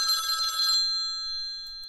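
A telephone bell rings in one short, loud burst that stops after under a second, leaving a high metallic tone that hangs and slowly fades.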